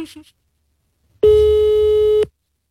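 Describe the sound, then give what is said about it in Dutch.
A ringing tone sounds as a call is placed from a mobile phone. A brief voice is followed by silence, then one loud, steady, pure beep lasting about a second that stops abruptly. “want ik bel hem dan nu met mijn telefoon”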